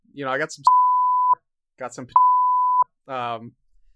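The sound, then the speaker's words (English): Censor beeps over speech: two steady, high-pitched electronic tones, each about two-thirds of a second long, cutting into the talk, with speech before, between and after them. “Editor, put beeps on that. Don't put beeps on that.”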